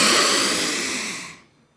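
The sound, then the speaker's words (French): One deep breath drawn in during a breathing exercise, a loud, breathy hiss that gradually fades over about a second and a half and ends with a faint click. “on va faire un petit exercice respiratoire.”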